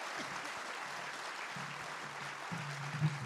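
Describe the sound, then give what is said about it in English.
Audience applause for volunteers at a folk festival: steady, dense clapping that holds evenly through the whole stretch, with a faint low tone running underneath. “So could we give all the volunteers a round of applause?”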